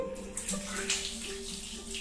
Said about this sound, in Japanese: お湯をね出しております